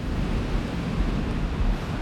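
Icy wind and waves on the Black Sea shore make a steady, rumbling roar of blustery noise with no clear breaks, dense in the low range and continuous throughout.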